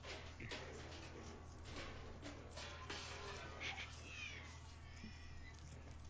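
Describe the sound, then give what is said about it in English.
A cat makes faint, drawn-out caterwauling yowls over a constant low hum, with thin wavering tones rising and falling near the end. “Cat growling.”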